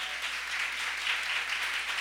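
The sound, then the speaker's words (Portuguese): Applause from women in a church audience during a church conference, a dense, steady patter of clapping that stays even and fairly soft for the whole clip. “Eu quero que as mulheres dêem uma salva de palmas para os homens.”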